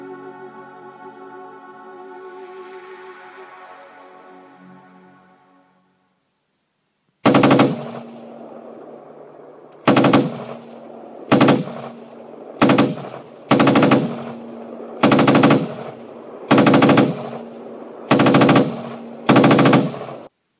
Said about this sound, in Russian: А рейнджер наверху открыл огонь из гаусс-орудия.